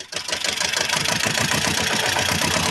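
The engine of a Kremser wagon starts and then idles steadily, with a mid-pitched rumble and a fast, even pulsing beat that stays loud throughout with no talk.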